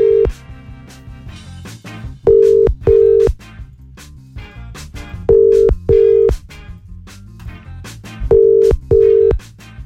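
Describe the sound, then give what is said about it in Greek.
Telephone ringing tones on an outgoing call come in three evenly spaced pairs of short, loud, steady beeps, with quieter rhythmic music running beneath and between them. “Ο Παναγιώτης δεν σηκώνει. Πάμε να πάρουμε. Ποιο είναι το επόμενο? Πάμε να πάρουμε την Ξανθή από τον Βασίλη.”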